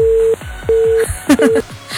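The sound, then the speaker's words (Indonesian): A disconnected telephone line tone during a radio call-in, with three steady mid-pitched beeps at even intervals, the last one cut short, and clicks and crackle between them. “Terputus terus teleponnya pendengar.”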